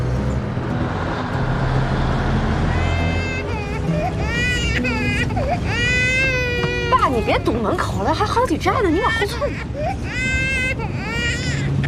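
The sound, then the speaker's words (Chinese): A baby cries on a crowded city bus, its high wavering wails rising and falling repeatedly over steady engine and road rumble, with adult voices talking throughout. “哎，不哭啊！”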